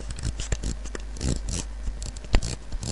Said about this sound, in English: you may hear it clicking there. That is the tune dial.